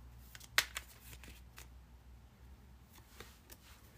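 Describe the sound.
Tarot cards being handled and laid out for a four-card spread. One sharp card snap comes early, followed by a few soft ticks and slides, all faint against a quiet background.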